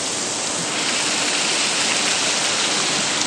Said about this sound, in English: you can watch the water patterns and that sort of thing. And that's what they're doing around the manger fountain itself in the centre.